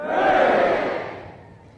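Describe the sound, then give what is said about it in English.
A crowd gives three cheers for the Queen, Lord of Mann, at a ceremony on Thursday 8th September: a single massed shout of "Hooray" swells quickly, then fades away over under two seconds. “to give three cheers to Her Majesty the Queen. Hip hip! Hooray! Hip hip! Hooray!”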